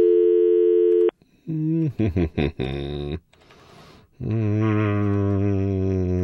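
A telephone call being placed: a steady dial tone, a quick run of touch-tone dialing beeps, a short pause, then a loud ringing tone sounding as the line calls back.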